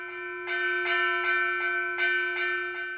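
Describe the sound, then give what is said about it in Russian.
A bell rings out for lunch on a farm during threshing, seven quick, evenly spaced strokes, fairly faint, over a steady low hum. “На обед позвонили!”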